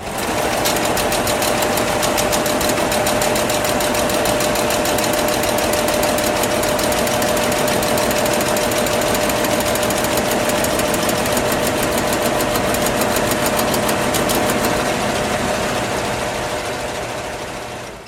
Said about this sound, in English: Hollerith is a system of punch card processing devices. Device makes them sound small. These are not small machines. They're not small. I mean, the basic machine is a sorter